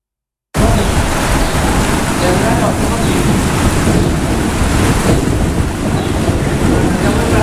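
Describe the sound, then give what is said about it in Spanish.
A thunderstorm over Galicia gives a loud, continuous, rushing roar of rain and rumbling that begins abruptly after a brief silence and holds steady. “Máis de 3.300 rayos caeron sobre Galicia nas últimas horas e segue a inestabilidade atmosférica este luns.”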